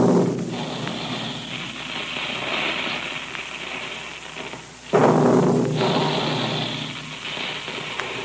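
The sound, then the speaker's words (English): Big guns firing: heavy booming blasts, each trailed by a long, rumbling roar. A second loud blast breaks in partway through and rolls on to the end, without talk. “Remember the sound of those big guns, boys and girls.”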